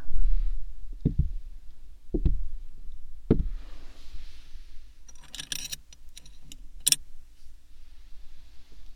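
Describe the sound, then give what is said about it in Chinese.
Office door being locked: three heavy clunks at roughly even intervals, then a jangly metallic rattle like keys, ending in one sharp click. “现在老师把办公室的门锁上了，窗帘也拉着呢。”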